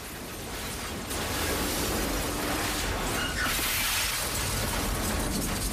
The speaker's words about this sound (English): the house is breaking up amidst almighty explosions, which sends shards of glass flying through the air.